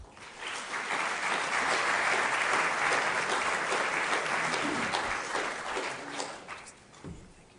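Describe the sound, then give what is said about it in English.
An audience applauding to welcome guest speakers, a dense wash of clapping that swells quickly, holds steady for several seconds, then thins out and fades. “But please just give them a hand of welcome.”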